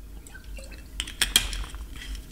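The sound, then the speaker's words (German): Someone takes a sip of water: a few faint clicks and clinks, as of a glass, cluster near the middle, with soft small liquid sounds around them and no talk. “Muss mal einen Schluck Wasser trinken.”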